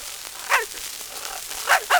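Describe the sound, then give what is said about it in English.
A dog barks three short times, one bark alone and then a quick pair near the end, faint over a steady background hiss. “Is this your dog, miss? Yes, it is.”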